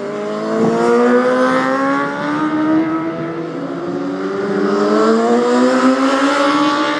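Racing motorcycles lapping a race track mid-race, their high-revving engines making a loud, continuous drone whose pitch keeps shifting as the bikes accelerate and ease off.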